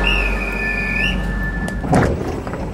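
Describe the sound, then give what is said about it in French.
A train on the Meuse valley line in the Ardennes sits at the platform, about to depart. A loud low rumble carries a thin, sustained high squeal that cuts off partway through, then a brief clatter follows. “On va monter parce que sinon on va rester à quai, là. Le train va partir.”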